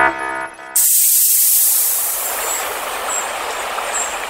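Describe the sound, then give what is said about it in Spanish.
Spaceship hatch doors open with a hiss on arrival at the planet Arpa Melodiosa: a brief tonal hum cuts off sharply into a loud, steady, bright hiss that holds for several seconds. “Descendiendo en el planeta Arpa Melodiosa. Abriendo compuertas.”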